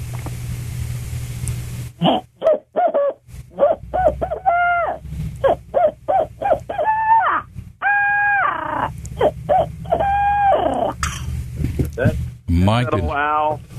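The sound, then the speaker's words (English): A hunter's owl game call imitates an owl, used to make turkeys gobble: a long series of short, rhythmic hoots, then longer drawn-out hoots, ending in a fast, wavering cackle. “Here's that old owl, and some people ask, why in the world would you have an owl call? You can't hunt owls, but an owl is going to make that turkey gobble. And so here's the sound of that owl.”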